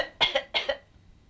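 A person coughs twice in quick succession. Each cough has a sharp onset and a brief second burst, and quiet follows.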